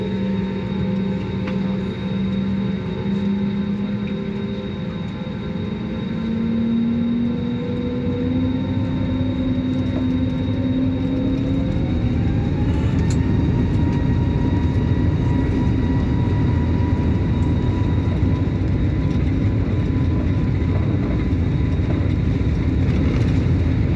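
Airplane on the runway before takeoff: a loud, steady engine rumble with whining tones that climb in pitch partway through, then hold high.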